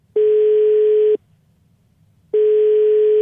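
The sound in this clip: Ringing tone of an outgoing telephone call: two loud, steady single-pitch beeps, each about a second long, separated by a silent pause of similar length.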